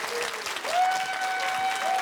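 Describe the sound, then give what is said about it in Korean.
Audience applause welcomes a woman participant called up during a lesson on traditional Korean drum rhythms. The clapping is a dense, steady burst lasting about two seconds, with a sustained tone running over it. “여러분 큰 박수로 맞이해 주시기 바랍니다.”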